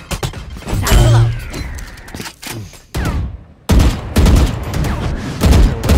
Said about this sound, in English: Grenade! Again, one shot at me.